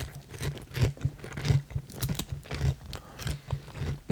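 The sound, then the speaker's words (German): Crunchy chewing of a chicken-wing-flavoured snack with a breaded-style coating, many irregular soft crunches and bites at a fairly low level, with a brief murmur from the eater. “So, jetzt probieren wir mal Mario Schicken.”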